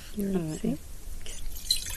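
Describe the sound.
Wine being poured out onto a garden, a liquid spatter and drip that follows a brief stretch of voice at the start and carries on as a steady, noisy splash to the end.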